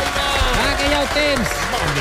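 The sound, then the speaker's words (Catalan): Brief applause cheering on a student named Aina before her exams, a busy clatter of clapping with voices calling out over it. “Un aplaudiment.”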